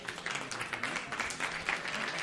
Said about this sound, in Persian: خیلی خوب بچه ها، دوستان تشویق کنید